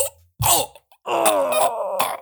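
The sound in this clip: A voice imitates someone being punched in the stomach: a sharp, strained grunt, a brief pause, then a longer, wheezy groaning moan broken by a few breathy bursts.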